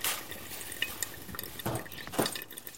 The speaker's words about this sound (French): Le liquide du café s'écoule dans le pot émettant un arôme divin.